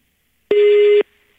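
A telephone busy tone sounds after a phone interview call disconnects: one loud, steady electronic beep lasting about half a second, followed by a faint lingering hum.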